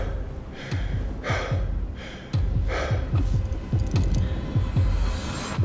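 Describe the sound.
Heavy, laboured breathing of someone at high altitude on Kilimanjaro: a steady run of loud gasping breaths over constant low background noise.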